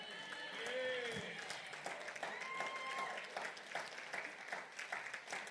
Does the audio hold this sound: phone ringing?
no